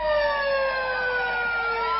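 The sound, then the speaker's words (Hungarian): Fire engine sirens wail in Pásztó, several steady tones layered together and sliding slowly downward in pitch, loud and continuous with road noise underneath. “Egymást érték a szirénázó tűzoltók Pászton.”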